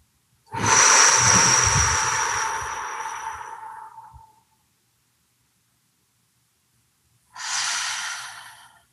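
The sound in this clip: A deep, slow breath is drawn in for about four seconds during a meditation, then silence while it is held, then a second, shorter breath.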